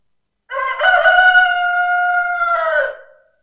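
A rooster crows once with a long, loud, harmonic call that holds steady for about two seconds before trailing off, heard alone without other sounds.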